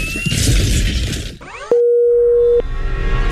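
A phone line's busy tone after the other party hangs up on the call: a single steady, mid-pitched electronic tone holds for just under a second, following a burst of clattering noise and then a stretch of hiss.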